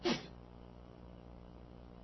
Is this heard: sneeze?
yes